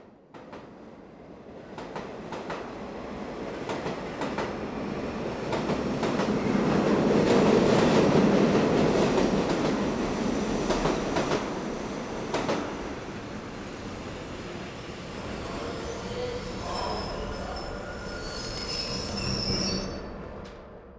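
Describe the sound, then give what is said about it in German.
A train rolling into Berlin Hauptbahnhof gives a rumbling clatter that swells to a loud peak and then eases. Scattered clicks run throughout, and shrill wheel squeals ring out high above the rumble toward the end. “Frauke ist sehr aufgeregt, als der Zug in Berlin Hauptbahnhof hält.”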